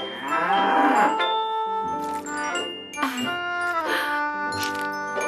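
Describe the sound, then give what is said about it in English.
A cow mooing while it is being milked: several loud, drawn-out, harmonic moos follow one another almost without pause, with no talk. “I did it! I'm milking the cow!”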